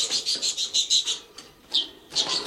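Budgerigar chirping in its cage: a quick run of bright, high chirps, then a short pause and a few more chirps toward the end.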